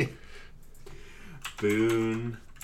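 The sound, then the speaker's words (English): Someone types on a computer keyboard, a run of quick, soft clicks and taps, with a voice speaking briefly over the keystrokes. “Type in Boondock Saints 2. I'm trying to remember this actor's name.”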